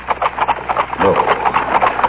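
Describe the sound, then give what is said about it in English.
Horses galloping with riders, approaching at speed: a fast, steady run of rhythmic hoofbeats, fairly loud and continuous throughout. “Ben, what's that? That cloud of dust moving very quickly toward us. Oh, it's men. Men on horses.”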